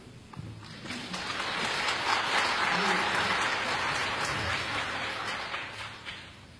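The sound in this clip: Concert audience applause welcoming performers on stage: dense, steady clapping that builds over the first seconds, holds, then eases slightly before cutting off.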